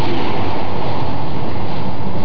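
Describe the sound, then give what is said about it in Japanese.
Steady rumble of a train running along the coast through mountains that reach the sea, on a line with many tunnels. The loud, even roar holds without a break and has no distinct wheel clacks or voices. “海辺まで迫った山々を抜けるこの列車にはまだまだトンネルが待っている。”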